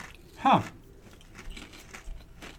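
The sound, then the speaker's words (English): A single crisp crunch as someone bites into a kettle cooked tropical salsa potato chip. The bite is brief and fairly faint, followed by a few softer, quieter sounds. “The chip has good crunch.”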